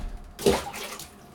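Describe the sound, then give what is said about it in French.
A phone dropped into toilet water lands with a single sharp splash, followed by a faint, fading swirl of water. No one speaks. “T'as foutu mon téléphone dans la cuvette ! Mais attends, je te le récupère, c'est rien, c'est juste un peu d'eau.”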